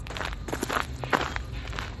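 Footsteps of someone walking outdoors, with several crisp, uneven treads landing in an irregular rhythm over a soft background hiss.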